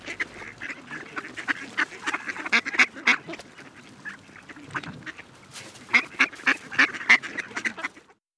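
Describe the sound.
Ducks quack in many rapid, nasal bursts, some overlapping, in two busy stretches separated by a brief lull, moderately loud with no other sound.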